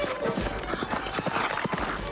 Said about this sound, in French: Et on y va à cheval.